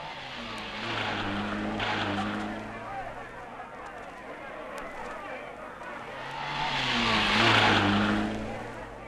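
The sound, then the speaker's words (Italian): Race cars roar past at a motor race in two loud swells. Each engine note climbs and then drops in pitch as the cars approach and pass, over a steady wash of background noise. “Mentre assiste a una gara automobilistica,”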